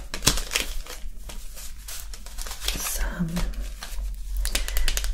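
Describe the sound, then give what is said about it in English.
Examination gloves being peeled off during a close-up eye exam roleplay give a series of soft crinkling, rustling and snapping sounds, irregular and fairly close, with a voice speaking briefly among them. “And I'm just taking off my gloves because those aren't needed anymore.”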